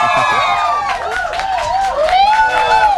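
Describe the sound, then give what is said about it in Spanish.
A studio audience at a live brunch show cheers and applauds: loud, wavering whoops and calls ride over a steady wash of clapping and crowd noise throughout. “Que se escuche que hay gente en el foro, por favor.”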